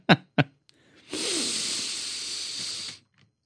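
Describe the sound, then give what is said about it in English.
Breathing in through the nose: two short, sharp sniffs, then a long, steady, airy inhalation lasting about two seconds. “Okay, breathe in through your nose.”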